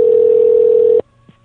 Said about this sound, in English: Okay, yeah, I accidentally called that one with Skype.